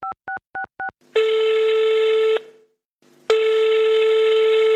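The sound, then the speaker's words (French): Telephone dialing and ringing tone as a call is placed: four short, evenly spaced keypad beeps, then two long, loud, steady ringback tones separated by a brief silence. “elle trouve le numéro, elle appelle”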